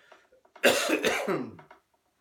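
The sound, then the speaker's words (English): Coughing from a person with seasonal allergies: a short, harsh burst of coughs with a throaty rasp, preceded by faint breathy sounds and ending in silence. “I know you're all judging me because I'm coughing, but I don't have coronavirus. It's just allergy season.”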